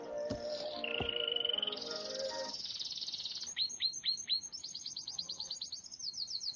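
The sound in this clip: A small sparrow chirps: after a sustained whistled tone and lower notes come bursts of quick, high, repeated chirps that grow busier toward the end, fairly loud and alone.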